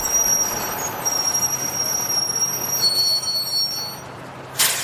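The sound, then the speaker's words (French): Train sounds at a railway station platform: a steady broad rumble and hiss with thin, high squealing tones, ending in a short sharp burst of hissing air. “me voilà à la gare de Lyon. Fin du voyage. Je suis sur le quai.”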